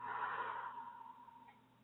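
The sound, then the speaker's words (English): A slow breath out during a guided relaxation exercise, soft and airy, starting fuller and gradually fading over about two seconds. “Breathe in, putting those tensions, worries, and cares on the cloud. Breathe out.”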